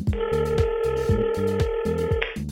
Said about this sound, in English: I think I'm ready for the next caller. What about you? Indeed, ring-a-ling.